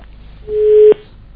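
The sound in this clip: A telephone line tone during a call that fails to connect: one steady, low-pitched hum of about half a second that cuts off abruptly over a faint background buzz.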